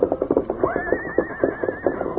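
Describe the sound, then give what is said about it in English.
A restless paint horse whinnies while rearing and pawing the ground. A high, wavering neigh rises over a run of lower rhythmic pulses. “Scout continued to whinny, rear, and paw the ground”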